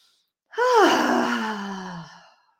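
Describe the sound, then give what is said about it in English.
A person does a breathing exercise, exhaling once through vibrating lips in a voiced, horse-like flutter. The clear single breath falls in pitch over nearly two seconds and fades out, alone in silence. “And a pony breath sounds like this.”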